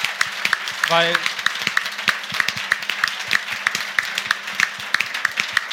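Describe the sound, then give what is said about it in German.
Audience applause, a steady patter of many hand claps running throughout, with a brief voice near the start. “Und da würde ich gerne nochmal Danke sagen, vielleicht auch mit einem Applaus, dass sie sich so geöffnet haben.”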